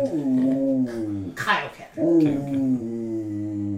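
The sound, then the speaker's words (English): A dog howls and whimpers in two long, mournful, tonal howls separated by a short breathy break, steady and fairly loud throughout. “Even the dogs agree.”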